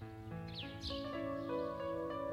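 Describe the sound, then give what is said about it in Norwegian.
A few short, downward-sweeping bird chirps after the rain, heard over sustained, steady musical tones. “Fuglene titter fram fra sine skjulesteder og kvitrer en munter melodi.”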